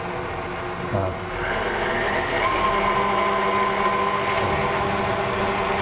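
An electric mixer beats a mixture at low speed. The steady whirring motor hum settles in after about a second and holds an even tone to the end.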